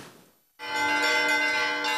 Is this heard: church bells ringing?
yes